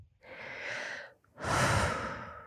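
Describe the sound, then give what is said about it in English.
A single deep breath, heard alone: a steady, airy inhale lasting about a second, a brief pause, then a stronger, fuller exhale that rushes out and tails off. “Deep breath.”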